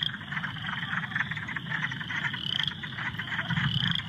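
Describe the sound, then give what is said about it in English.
Wood frogs croak as a dense chorus of overlapping, rapid clucking croaks that pulse continuously. A thin, steady high tone runs above the croaking throughout. “Wood frogs are in a frozen hibernation now, but when active, they sound like this.”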